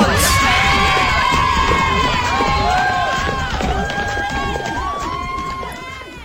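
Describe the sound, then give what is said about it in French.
Children at a school complex shout and cheer together, a dense, loud clamor of high voices that eases gradually toward the end. “Nous sommes au complexe scolaire La Bourgeoisie du Nord.”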